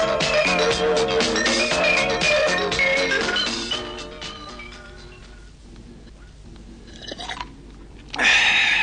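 Chewing from people eating a chicken meal, many wet, crunching bites in quick succession, loud at first, then quieter, then rising again near the end.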